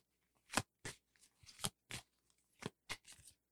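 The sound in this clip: Goddess Tarot deck cards being shuffled, heard as faint, crisp riffling bursts in an irregular run of several quick flicks.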